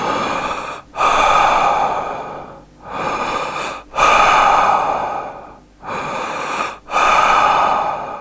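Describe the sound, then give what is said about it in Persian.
Short, shallow breaths in a breathing exercise: loud, airy inhales and exhales alternate in a steady rhythm, with brief pauses between them. “شما نفسهای کوتاه میکشین، اما حجم هوای زیاد وارد ریه هاتون نمیشه، یعنی نمیتونین تنفس خیلی عمیق و خوبی داشته باشین. وقتی که میدوین یا ورزش میکنین هم همچنان همین جوری نفس میکشین. همین الان امتحان کنین.”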